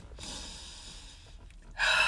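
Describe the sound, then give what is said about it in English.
A person taking a deep breath: a long, airy inhale followed by a louder rush of exhaled air at the very end. “let me take a breath.”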